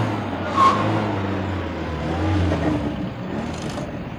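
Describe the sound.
Car engine on a large bridge over a city river: a low, steady rumble of a vehicle, fairly faint, with no sharp events standing out.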